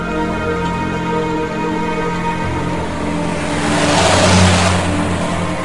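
A car engine accelerates as the car drives off and leaves the city, a steady mid-pitched drone with strong harmonics that swells louder toward the end.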